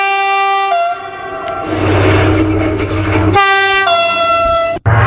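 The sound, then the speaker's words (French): A TGV high-speed train sounds its loud, tonal horn, with a rushing rail roar between two blasts. “2006, le TGV fête ses 25 ans.”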